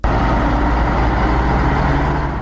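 Commercial cargo trucks loaded with food and vehicle tyres travel along a road transport corridor through Herat, producing a loud, steady, deep engine rumble that holds without break.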